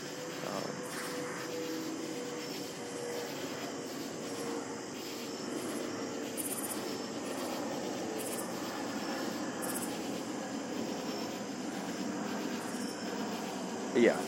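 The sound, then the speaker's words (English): An airplane passes overhead as a steady, broad low roar that stays at an even level throughout. “that's a plane flying over, by the way.”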